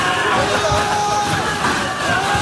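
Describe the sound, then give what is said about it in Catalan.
Crowd in the streets of Paris during riotous celebrations of PSG's Champions League victory: a loud, dense roar of many voices with scattered shouts, steady across the short stretch. “Aquest és el so dels carrers de París.”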